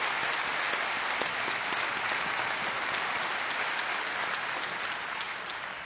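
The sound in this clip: A worship audience gives a clap offering to God in sustained applause, a dense, steady wash of many hands clapping that holds throughout and eases slightly at the end, with no speech.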